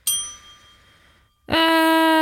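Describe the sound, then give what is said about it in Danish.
A bright bell chime rings out, struck twice: the first ding fades slowly, and the second, louder strike rings on steadily and strongly. “Ring i Bella.”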